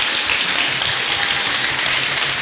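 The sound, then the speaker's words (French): Church audience clapping in praise, a loud, dense, continuous patter of many hands merging into an even rain-like texture with no pauses. “Let's stop and clap for the Lord Jesus Christ. Levons-nous, acclamons pour le Seigneur Jésus. Clap! Acclame!”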